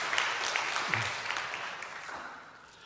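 Audience applause welcomes two guests at a church gathering, with steady, dense clapping at a low level that slowly fades toward the end.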